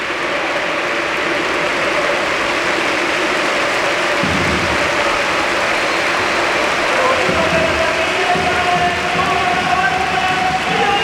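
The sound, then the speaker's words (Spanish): Stadium crowd at the Villamarín applauding Isco as he is substituted off, a steady, dense wash of clapping and crowd noise that runs the whole way through, with a commentator speaking over it. “Mira, así despide el público a Isco.”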